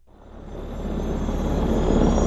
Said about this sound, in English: Three helicopters carrying assault teams from the 2nd Battalion, 3rd Marines, and a squad of Afghan soldiers.